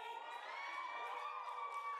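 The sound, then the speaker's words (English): Crowd cheering and whooping during a video game publisher's E3 conference presentation, a faint, continuous wash of many excited voices that holds steady without clear peaks. “Crowd is riled up.”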